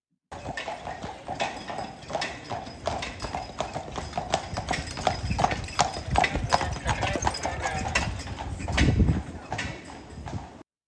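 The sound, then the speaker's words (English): Hooves of large Belgian horses clip-clop outside a hotel in a steady run of many strikes, with low rumbling steps underneath and a heavier surge of hoofbeats near the end. “That was the sound of trampling horses. Big Belgium horses, by the way, outside of our hotel that we stayed at”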